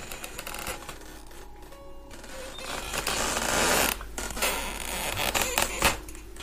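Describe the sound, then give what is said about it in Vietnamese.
A wooden window shutter creaks and grates while fingernails scratch on wood, making rasping, uneven scraping. The noise swells and fades in irregular bursts throughout. “Ở bên ngoài cửa sổ dường như có tiếng gì đó phát ra, như là ai đang cào vào cánh cửa, làm cánh cửa chuyển động cót ca cót két, cùng với tiếng rin rít móng tay cào lên gỗ.”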